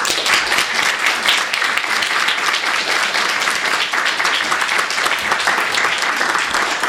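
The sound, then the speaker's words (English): Audience applause welcoming author T.C. Boyle at an event for his newest novel: dense, steady clapping continues at an even level for the whole seven seconds. “so please help me give a warm welcome to T.C. Boyle”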